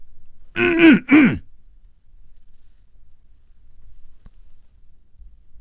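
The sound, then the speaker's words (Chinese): A man's single cough, imitated by a voice, comes out as a throaty ahem in two short voiced bursts with a falling pitch. Near silence follows, with one faint tick later on. “他努力地鼓足了勇气，咳嗽了一声。”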